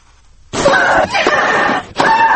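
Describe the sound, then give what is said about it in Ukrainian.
Tennis player Victoria Azarenko screams loudly during play at Wimbledon. Three strained, shrill cries follow in quick succession after a moment of quiet. “стогони і крики спортсменів під час гри на кортах. Як розповідає з Лондона Богдан Цюпин, у цій категорії найпомітнішою чи найгучнішою була представниця Білорусі Вікторія Азаренко.”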